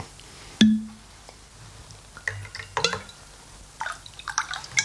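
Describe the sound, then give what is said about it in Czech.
Whisky being poured into a glass: a sharp, ringing glass clink comes first, followed by a series of small, irregular liquid splashes and drips. “Já vám naliju whisky, ano? Ale jenom trošinku, prosím.”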